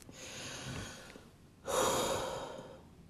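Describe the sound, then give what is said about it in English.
Deep breathing: two long, airy breaths, the second louder and fuller than the first, with no other sounds and no talk. “And so, in this podcast space, we're going to breathe deeply”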